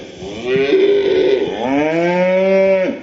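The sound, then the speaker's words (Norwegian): A cow and her calf moo in a barn while kept apart, two long, drawn-out calls back to back, loud and resonant, with no voices. “Er det ikke koselig med fjøslyder, dere? Men hvis jeg forteller dere at dette lyden av mor og kalv som ikke får være sammen, da det kanskje annerledes.”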